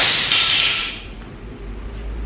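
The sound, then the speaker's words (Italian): A broom sweeps across a floor in a single bright, hissing swish that fades quickly into near silence. “la signora passa la scopa sul pavimento, passa la scopa sul pavimento, scopa per terra. La signora sta scopando il pavimento con perfezione.”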